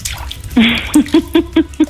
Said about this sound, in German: Ich bin jetzt in der Badwanne.